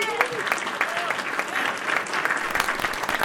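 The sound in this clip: Audience applause greeting a guest, dense and steady clapping that continues without a break.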